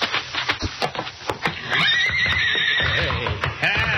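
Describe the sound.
A stallion kicks its stall with a few dull thumps, then lets out a long, loud, shrill whinny that carries for a couple of seconds with a quavering pitch.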